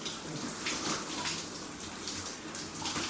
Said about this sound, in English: So, taking a shower on Sunday, the 5th May in 2030.